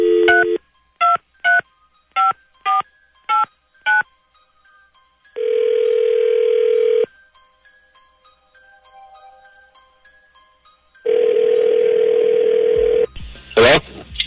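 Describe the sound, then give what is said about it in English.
A touch-tone telephone number is dialed as a quick, evenly paced series of short electronic beeps. Two long, steady tones follow, with a quiet gap between them. “Dialing at random.”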